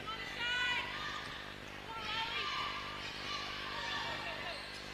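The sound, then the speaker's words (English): A basketball being dribbled on the court during a women's game, faint bounces under a commentator's voice and a busy, noisy gym background. “Out top with the dribble is Davey.”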